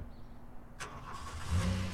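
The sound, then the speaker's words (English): A car engine starts early in the morning in Los Angeles as the driver gets in. A sharp click comes first, then a low engine rumble swells and settles into a steady hum. “It's 5 a.m. now in Los Angeles, and I'm getting in my car,”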